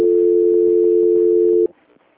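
A steady telephone line tone while a call is being transferred: one continuous, unwavering mid-pitched hum that holds for over a second and a half and then cuts off abruptly, leaving faint line noise.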